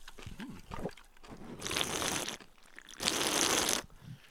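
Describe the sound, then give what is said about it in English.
Cans of LaCroix sparkling water being cracked open, heard as two separate bright, hissing bursts of fizz, each lasting under a second, after some brief low rustling. “Yeah, crack them. Here we go. Let's crack some LaCroix, guys.”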